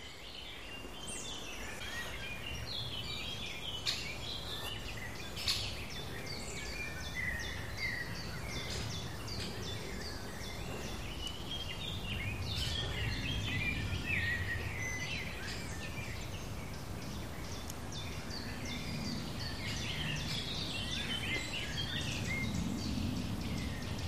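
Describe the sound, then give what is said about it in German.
Blackbirds sing across an open springtime landscape, faint overlapping phrases of song that carry on throughout, mixed with a continuous thin chirping of insects. “Die Kulisse wird von außen herum untermalt von Amselgesängen, ziemlich weit oben”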